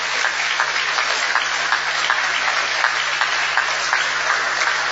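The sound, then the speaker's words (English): Conference audience clapping for the session secretary at a closing session: a dense, continuous patter of many hands at an even, fairly loud level, with no voices standing out. “So please, let's give a big clap for the Secretary, Dr. Kazuaki Yakishima,”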